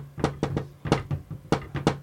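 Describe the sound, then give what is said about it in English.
A door is knocked in a patterned sequence of sharp raps, grouped in a few quick clusters with short pauses between them, at moderate loudness over a faint low hum. “That's a bit English, that knock.”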